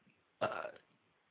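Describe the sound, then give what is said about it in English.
A single short burp, low and croaky, lasting under half a second against near silence. “Did you just burp? No, it was me.”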